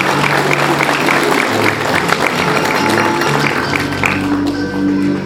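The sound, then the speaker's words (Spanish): Applause from the audience at a school graduation ceremony: dense, loud clapping that holds steady across the whole clip. “Fuerte los aplausos, por favor.”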